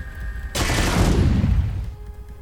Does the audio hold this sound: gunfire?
yes